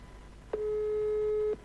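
A telephone line tone sounds during a call: a single steady, mid-pitched beep lasting about a second. Faint background hiss comes before and after it.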